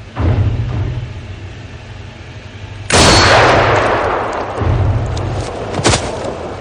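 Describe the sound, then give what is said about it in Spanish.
A gunshot from a Western film, fired point-blank at a man's chest, hits as a sudden loud blast midway, then decays into a long rumbling tail over a low droning background, with another sharp crack near the end. “con enorme frialdad, le apunta al pecho y dispara.”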